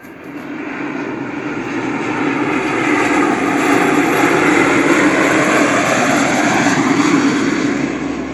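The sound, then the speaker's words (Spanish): Airplane engine roar: a broad, steady droning rumble that swells slightly in loudness and holds evenly for about eight seconds, loud and continuous with no talk. “Entonces, tomemos el avión y vamos.”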